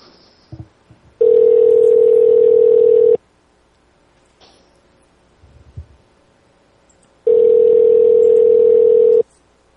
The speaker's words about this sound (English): We calling the guy back? Yeah, I'm calling him back.